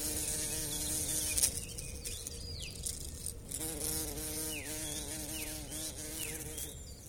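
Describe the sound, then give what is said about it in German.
A large fly buzzes continuously and fairly quietly, its droning whine wavering up and down in pitch as it moves about, with no voices present. “Während Sie sich gerade vielleicht hektisch umgeschaut haben, wo dieser Brummer steckt und was er Ihnen tut”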